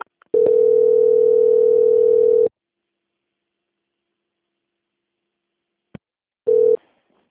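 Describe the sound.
Telephone line tone during a call transfer to a bank's quality control: one steady tone lasting about two seconds, then silence, a single click, and a brief return of the same tone.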